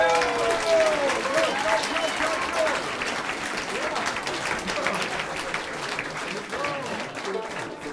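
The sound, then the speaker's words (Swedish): An audience at a Swedish folk music event applauds a man, with dense, steady clapping that runs throughout while voices are heard underneath. “Ge honom en liten applåd.”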